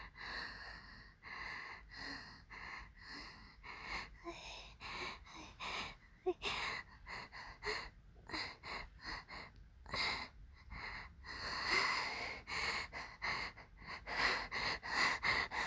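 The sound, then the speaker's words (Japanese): A man's heavy breathing during sexual arousal comes as many quick, rhythmic, rough breaths, fairly faint, with occasional voicing mixed in. “ごめん、すぐ息荒くなっちゃう。”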